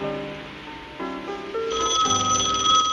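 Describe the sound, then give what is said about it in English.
A telephone rings inside a lighthouse at night, a bright, steady tonal ring layered over lower sustained tones that shift in pitch partway through. “She answers the phone.”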